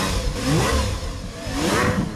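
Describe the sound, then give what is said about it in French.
Sports car engines revving just below the windows of ministers' offices, a loud, continuous roar with sweeping tones that swell, ease off and swell again. “il y a d'abord le vrombissement des voitures de sport juste en dessous des fenêtres des bureaux des ministres ce matin.”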